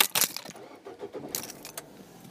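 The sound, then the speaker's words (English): Car keys jangle as a driver starts the car: bright metallic rattles burst at the start and return in a second cluster later, with softer shuffling between. “So I'm going to put on my safety belt, turn on my car,”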